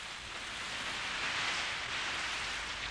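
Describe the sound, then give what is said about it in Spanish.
Rain falling in a steady, dense, even hiss with no breaks or individual drops standing out. The level stays constant throughout and no voices are heard. “¡No se puede confiar en los pronósticos! ¿Con qué 10% de probabilidades de lluvia?”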